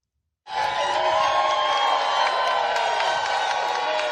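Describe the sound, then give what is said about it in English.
Supporters cheering as New York Attorney General Letitia James leaves a federal courthouse in Virginia: a crowd roar bursts in abruptly after a short silence, then holds loud and steady with mixed shouts, whoops and some clapping. “Her supporters cheered as she left a federal courthouse in Virginia this morning.”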